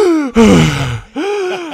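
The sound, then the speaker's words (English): A voice imitates a gasp, the body catching its breath after fresh cucumber following a stretch without vegetables: a short voiced sound, then a breathy intake falling in pitch, then a longer voiced tone. “you can feel your body go, like that, just like it's catching a breath.”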